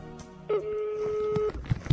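A telephone call is being dialed. A single steady electronic tone holds for about a second, followed by a few low, muffled thumps over faint background noise.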